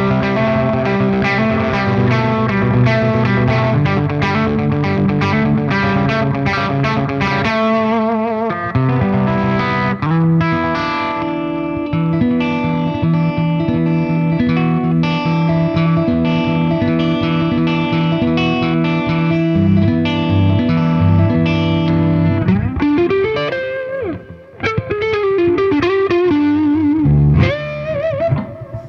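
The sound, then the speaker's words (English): Electric guitar played through a Carbon Copy delay pedal and a Holy Grail reverb pedal, set up as a lead tone that is not especially aggressive. Sustained notes and chords ring continuously with echoing tails, and a rising slide appears near the end. “So here's just the Carbon Copy and the Holy Grail.”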